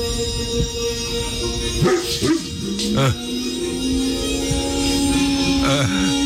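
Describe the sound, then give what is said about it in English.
A big male dog barks and vocalizes in a few short bursts of yips and whines over a steady tonal background, sitting in front of a blank TV. “It's a big boy dog who apparently loves Star Wars. He's sitting there and the TV screen is blank. I want to hear what he has to say here.”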